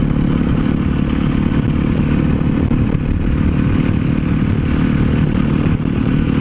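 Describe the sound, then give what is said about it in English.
A supermoto motorcycle engine, a street-legal project bike, runs with a loud, steady, rough drone and a rattling, clattery texture throughout, with no voices. “This motorcycle really was just kind of a project to make street legal, but I don't really anticipate riding it very much.”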